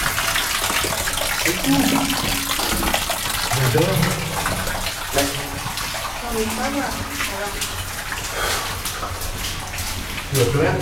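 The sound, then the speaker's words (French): Hot water flowing out in a steady, dense rushing gush that continues throughout, with people talking over it. “Attention, mais l'eau chaude sort de là.”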